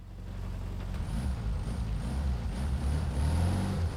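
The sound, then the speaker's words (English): A battered Volkswagen Beetle pulls out and passes a stationary car at night. Its low engine drone is fairly quiet and steady and gradually grows slightly louder over the few seconds. “The Beetle, driven by a man in a large Stetson, pulls out and passes the stationary car.”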